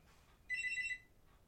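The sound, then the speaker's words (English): Telephone ringing: a single bright, high electronic trill with a rapid warble, lasting about half a second, then stopping, heard over faint low background noise. “Is that the phone? That's your telephone ringing.”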